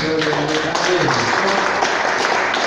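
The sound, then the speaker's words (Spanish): Congregation applauding God during a church sermon, a short burst of clapping mixed with voices that rises at once and stays full and even throughout. “Denle un aplauso a ese Dios,”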